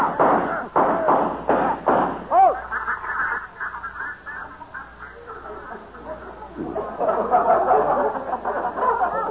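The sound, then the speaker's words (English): Shotgun blasts from a duck hunt, a rapid string of thumping shots in the first two seconds, followed by voices talking over a low hiss. “How many we get? None. I must be shooting high. I must be shooting low.”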